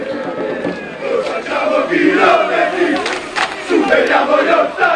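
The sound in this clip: Football fans chant together in the stands during a match. The loud, continuous group voices swell and dip in rhythmic waves, with no pause across the whole stretch.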